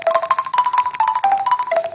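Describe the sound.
A pop song cover played as electronic tones on two mobile phones held one in each hand, a steady, rhythmic run of bright synthetic beeping notes, loud and continuous throughout.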